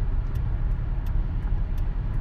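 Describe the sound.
Steady, loud road and engine rumble from a car driving north on a highway near St. Ignace on a Friday afternoon, with a constant broad roar and no talking.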